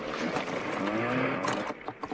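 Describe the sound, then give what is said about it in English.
Small boat engine sputtering with water in it, a rough steady mechanical drone that breaks into uneven choppy bursts near the end. “I guess when I rocked the boat, I must have got a little water in the engine.”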